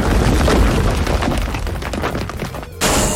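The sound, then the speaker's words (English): Stone pyramid attack effect from a video game battle: a dense, roaring crash of rumbling debris that runs continuously and slowly thins out, then a fresh loud burst hits just before the end. “Foe character used stone pyramid.”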